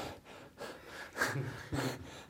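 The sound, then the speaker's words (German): Rapid, forced breathing of a person deliberately hyperventilating before a breath alcohol test: a few loud, rushing breaths in quick succession, with nothing else heard. “Jetzt probiere ich es mal, hyperventilieren, also schnell atmen und dann nochmal testen.”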